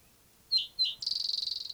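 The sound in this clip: Bird singing: two short, high chirps followed by a rapid, even trill of many high notes, fairly faint and alone.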